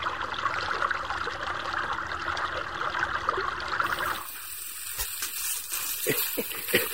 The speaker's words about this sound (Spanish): Oiga, otra vez que sale el agua.